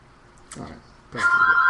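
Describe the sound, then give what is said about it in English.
A home telephone starts ringing near the end with a steady, bright electronic tone, after two short bursts of voice. “Who the fuck is calling Joe?”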